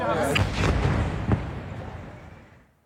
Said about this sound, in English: This is the moment Israeli fighter jets struck a residential building near Al-Aqsa Hospital in Deir al-Balah in central Gaza. The strike has left widespread devastation in the area.